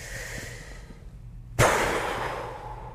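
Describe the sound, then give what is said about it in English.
A deep inhale during a guided breathing exercise: after a quiet stretch, a single sudden rush of drawn-in breath starts abruptly and then tapers into a fading airy hiss, with no talking. “Inhale.”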